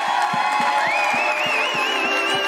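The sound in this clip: A church audience at a Missions Sunday service cheers and whoops in welcome. The crowd noise is loud and continuous, and a high whoop rises and then holds above it.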